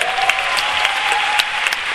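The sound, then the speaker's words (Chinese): A crowd at a company sharing session for chain-store owners applauds to welcome a speaker. The clapping is dense and steady and lasts the whole time. “掌声欢迎曾子贤”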